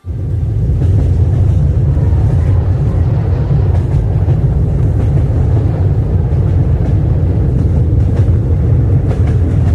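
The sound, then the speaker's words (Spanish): A train travelling on rails gives a steady, loud, low rumble throughout, with faint, irregular clatter riding on top and no voices. “Y nos hemos vuelto a subir a un tren”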